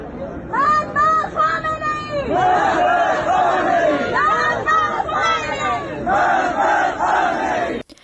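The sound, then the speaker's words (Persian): A crowd at a cemetery ceremony in Iran chanting anti-government slogans: many voices shouting together in loud, rhythmic, repeated phrases that continue without a break. “ویدیوهای دریافتی از این مراسم نشان می‌دهد که با وجود جو شدید امنیتی در اطراف این آرامستان مردم شعارهای علیه حکومت سر دادند.”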